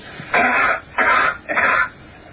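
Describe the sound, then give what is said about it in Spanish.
Three short, breathy cough bursts, evenly spaced and similar in loudness, used to compare a cough on Earth with how it would sound on Mars. “O sea, la primera entrada es la tos en la Tierra. La tos en la Tierra. Y la segunda ya sería la tos o si se produjera en Marte en las mismas condiciones.”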